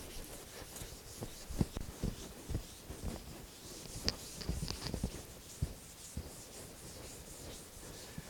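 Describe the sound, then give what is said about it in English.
Faint rubbing of an eraser wiping writing off a board, many irregular scrubbing strokes with soft scratchy bursts of varying strength, heard alone without talk. “is everybody okay if I erase this? You probably can't read it anyway, right?”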